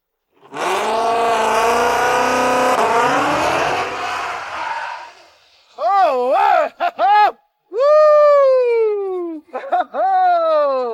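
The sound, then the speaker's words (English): A drag race car accelerates down a quarter-mile strip on a pass without nitrous, its engine a loud, sustained, rasping roar for about five seconds. Excited vocal whoops and shouts follow. “We're doing no nitrous this pass. It's just get a feel for running down a quarter mile strip.”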